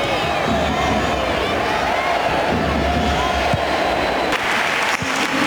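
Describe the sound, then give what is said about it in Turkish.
Stadium crowd at a Spain–Croatia football match, with Spanish fans applauding Luka Modrić as he comes on as a substitute. Continuous loud clapping and cheering mix into a dense, steady roar throughout. “Luka Modrić oyunda. İspanya tribünleri ve teknik direktörü Luis de la Puente ayakta alkışladı.”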